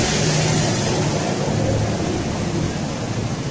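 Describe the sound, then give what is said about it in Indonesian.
A boat passes by on the water with a loud, continuous broad rushing wash that holds steady the whole time, with no talking. “Sorry ada perahu lewat lagi”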